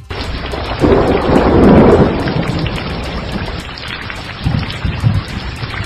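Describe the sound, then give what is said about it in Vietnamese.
Thunderclap over heavy pouring rain: a dense, loud hiss of downpour throughout, with a deep rumble swelling early on and a few lower rumbles later. “Lại một tia chớp xoẹt qua đánh ầm một tiếng. Mưa to tầm tã trút xuống.”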